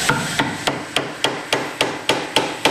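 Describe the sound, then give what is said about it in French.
A hammer drives a wooden wedge to lock a knife blade into a tenaillon, a temporary handle, at a cutlery museum in Thiers: ten sharp, evenly spaced blows in a steady rhythm, with no talk. “Donc, on va placer la lame dans le tenaillon et ensuite, on va bloquer le tout avec un coin en bois.”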